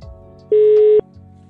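A single telephone tone as someone places a call to a colleague: one steady, mid-pitched beep lasting about half a second, clear and alone against a quiet background.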